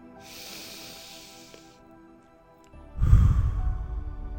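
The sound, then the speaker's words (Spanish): Slow, deep breathing in and out during a guided breathing exercise, heard as two long, airy breath sounds, the second louder and heavier with a low rumble, and no talking. “Vamos a respirar.”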